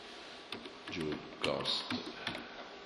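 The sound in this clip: Typing on a computer keyboard: quiet, quick clicks arrive in a few short irregular bursts against a faint steady background.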